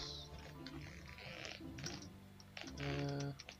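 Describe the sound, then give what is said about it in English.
Faint typing on a computer keyboard during an online tabletop role-playing game session, a run of quick, light key clicks over a steady low tonal background. “Sorry, I actually have to type out my rules, unlike you guys who can just press keys.”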